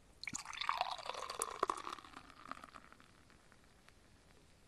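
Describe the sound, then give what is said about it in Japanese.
Sorachi beer pours into a glass with a soft, fizzy, foaming hiss. The sound is faint and busiest early on, then thins to quiet crackling bubbles, with one small tap at the end. “注いでいきます。まずは普通のソラチを開けていく。うん、ソラチ。注いでいきまーす。”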